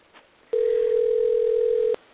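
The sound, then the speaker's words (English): A telephone dial tone sounds while a call is placed to a guest in California. After a brief near-silence, a single steady, unbroken tone sounds for about a second and a half, then cuts off cleanly, with no talk. “We attempted to call and had a little bit of issue with the phone earlier, so let's see if we can get him online with us.”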